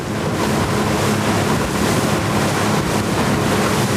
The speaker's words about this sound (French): Dans le bruit du moteur, le bateau rentre lentement vers Libreville.